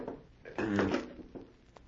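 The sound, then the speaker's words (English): A hidden safe is opened, a brief mechanical scraping rattle that swells for about half a second, followed by a few faint knocks. “There's a safe behind it. Yes. Now watch. I shall open it and you shall see.”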